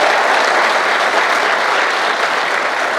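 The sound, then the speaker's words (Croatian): Audience applause at a political party gathering, honouring a longtime town mayor: dense, steady clapping from a crowd that holds an even loudness for the whole stretch, with no voices over it. “Molim vas jedan aplauz za Josipa.”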